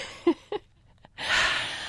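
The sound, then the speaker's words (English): A deep breath taken during a pause in conversation: one long, airy, noisy rush of air lasting under a second. It follows two brief vocal sounds and a small click. “Take a deep breath.”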